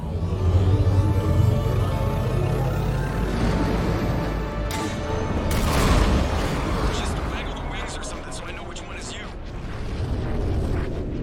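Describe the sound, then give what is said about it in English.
Heavy guns of the Quarian fleet pound a Geth Dreadnought in a science-fiction video game. Deep booms blend into a continuous roaring rumble that swells and eases, with voices at times. “We've escaped, and the Quarians are unleashing the heavy guns on the Geth Dreadnought.”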